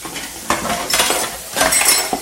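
Dishes clink and clatter as they are moved and settled into place beside a sink full of water, a few short bursts of knocking and scraping with no voices.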